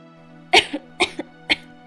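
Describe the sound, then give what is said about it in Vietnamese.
Dry, intermittent coughing in a room from a seriously ill young woman: three separate harsh coughs, evenly spaced, each followed by a smaller catch, over a faint steady hum. “Đột nhiên trong phòng vang lên tiếng ho khan đứt quãng.”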